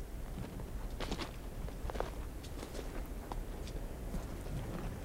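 Footsteps of a man walking outdoors, faint, irregular soft steps partly buried under a steady, broad background noise.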